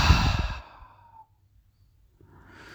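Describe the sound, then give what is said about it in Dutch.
A slow, deep breath, in through the nose and out through the mouth, comes as one soft, breathy sigh that tapers into near silence. A faint hint of further breathing follows at the end. “En je haalt nog een keertje diep adem in door je neus. En uit door je mond.”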